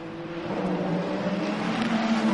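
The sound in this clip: A Ferrari race car engine roars during a track race, a loud, steady, continuous drone that holds a fairly even pitch throughout without pauses.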